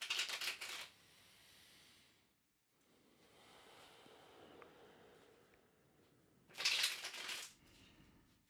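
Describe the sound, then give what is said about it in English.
Tarot cards being shuffled and one pulled from the deck: two short, quiet bursts of crisp riffling several seconds apart, with faint soft handling noise between them. “And the card I just pulled is the Hierophant.”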